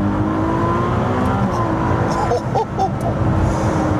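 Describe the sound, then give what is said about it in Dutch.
Loud, steady engine drone from a mid-engine V6 plug-in hybrid sports car, a 296 Speciale, holding a smooth harmonic tone with a brief dip in level midway before resuming at full strength. “Maar deze V6, de Piccolo V12, zo willen ze hem zelf noemen. Zo klinkt die ook wel een beetje. Hier, luister.”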